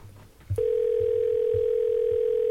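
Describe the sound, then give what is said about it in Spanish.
A steady, unbroken telephone line tone sounds while a call is being placed. It begins after a short low thump and stays at one even pitch to the end. “estamos llamando a Candela, a ver si nos contesta”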